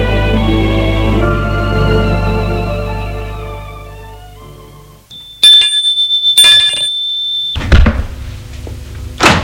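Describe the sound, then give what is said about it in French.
An electric doorbell rings at the parents' house, a bright, trilling ring lasting about two seconds, preceded by fading sustained tones and followed by a dull thump. “Le lendemain, très ému, il va sonner chez les parents.”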